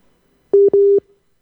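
Telephone line tones as a call to a weather forecaster is still being connected: two short, steady, low-pitched beeps in quick succession, alone against silence.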